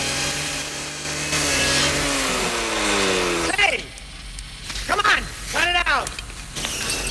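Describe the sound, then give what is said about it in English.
A chainsaw cutting into a robot's midsection: a steady, buzzing engine drone, then several sharp revs that rise and fall in pitch, loud and harsh. “A chainsaw cuts into RoboCop's midsection.”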